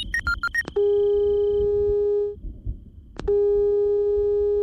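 Ringing tone of an outgoing telephone call: a brief burst of quick dialing beeps, then two long, steady, loud tones separated by a pause.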